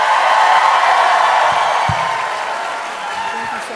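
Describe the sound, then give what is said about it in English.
Audience applause with cheering and whoops welcoming a guest, the second gentleman, onto a stage: loud, steady clapping that eases slightly toward the end. “So please, put your hands together and give a warm Strict Scrutiny welcome to the one of one, the only one, the second gentleman, Doug Emhoff.”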